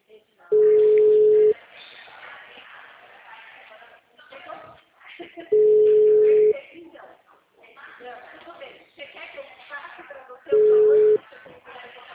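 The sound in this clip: Ringback tone on an outgoing telephone call: three steady, mid-pitched beeps, each about a second long and spaced roughly five seconds apart, with muffled voices and shuffling between them.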